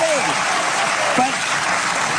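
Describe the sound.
Audience applause at a political discussion event: a steady, dense wash of clapping that holds evenly throughout, with faint voices mixed in.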